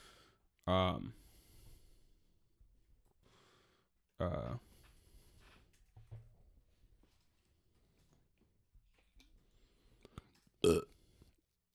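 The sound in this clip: Loud belches break through a quiet conversation: a long, deep harmonic burp at the start and a second one a few seconds later, then faint talk and a sharp short click near the end.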